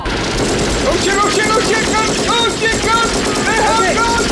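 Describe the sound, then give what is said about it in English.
Gunfire from soldiers ordering a crowd to disperse, a loud, dense, continuous clatter of rapid shots throughout, mixed with excited shouting voices. “Oh shit! Guns! They have guns!”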